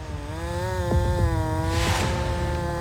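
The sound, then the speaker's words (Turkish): A chainsaw cutting through a felled tree trunk lying on the ground, its engine holding a steady, buzzing whine at constant pitch, with a brief noisy burst of cutting near the end. “Ağacın ağırlığı aşağı doğru basıyor. Bu yüzden epey yukarıdan kesiyorum. Ama çok yukarı yönlendiremiyorum.”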